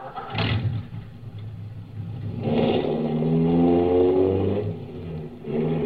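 A car engine on a drive to a plant: a steady mid-pitched hum that climbs as the engine revs, then settles, with no voices.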